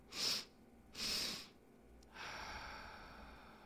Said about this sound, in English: So you're taking two sections of inhale through your nose and exhale through your mouth. Let's do it. Inhale. Exhale. Twice more.